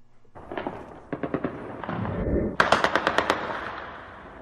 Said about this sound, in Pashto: د تیرې شپې د ډزو په ژغونو پیلېږي